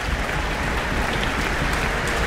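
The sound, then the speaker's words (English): Loud, dense applause from a concert audience greeting orchestra players, including the clarinet section, in a town hall, a continuous roar of clapping throughout with no voices on top. “Jonathan Cohen just got an applause, and it looks like all the clarinets.”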